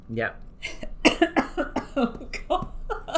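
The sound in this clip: Coughing from someone who has inhaled a shortbread biscuit spiced with ginger, cinnamon and mixed spice: a few harsh, sudden coughs mixed with voices talking.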